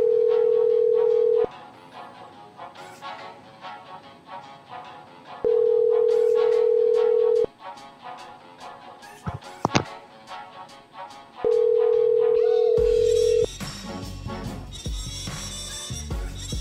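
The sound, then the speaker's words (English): Ringback tones of an outgoing telephone call: three long, steady, mid-pitched tones separated by pauses of several seconds, with other sound between them and a loud noisy burst near the end. “The person you have dialed can't take your call now.”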